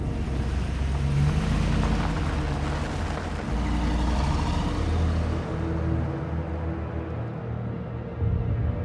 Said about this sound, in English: They drive on a highway. They drive on a tree-lined road.